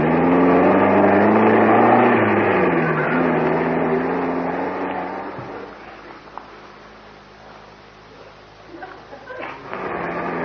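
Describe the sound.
An old car's engine runs with a loud, low, steady droning roar that slowly fades quieter in the second half as the car drives off.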